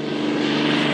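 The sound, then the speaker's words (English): An airplane spraying for mosquito control drones steadily, its propeller engine a loud, continuous hum with no breaks. “That is the sound of an airplane spraying for mosquito control today.”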